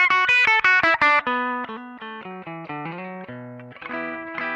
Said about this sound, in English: So you should actually hear a little bit of breakup just from playing a little harder.